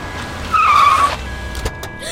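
A car braking hard and skidding to a stop: a loud, high tire squeal lasting about half a second, then a short dull thud and quiet.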